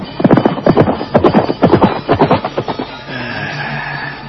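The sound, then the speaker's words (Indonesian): Hooves of a horse as a rider gallops away from an official's residence: a run of loud, rhythmic beats for about three seconds, then a softer, steady noise to the end. “Dan sebentar kemudian, dia sudah berkuda meninggalkan rumah kediaman Patih Nambi.”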